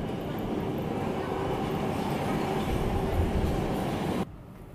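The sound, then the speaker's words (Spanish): A train arriving, heard as a loud, continuous rumble and roar of rail noise that holds steady, then drops sharply to a quieter hum just before the end. “discúlpame que ahorita viene, aquí viene el tren, un segundito.”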